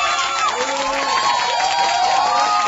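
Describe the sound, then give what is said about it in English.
An audience cheering: a continuous, dense wash of crowd noise with whoops and shouts, steady in level throughout. “Audience loves it.”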